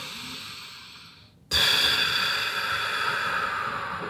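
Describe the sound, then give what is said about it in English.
Slow, deep breathing in through the nose and out through the mouth: a softer airy sound fades away, then a louder, steady breathy rush starts abruptly and holds for more than two seconds, with no voices. “Breathe in through your nose. Nice and slow and deep. Feel it fill up your lungs, feel your chest expand, feel your body become oxygenated, and then breathe out through your mouth, nice and slow.”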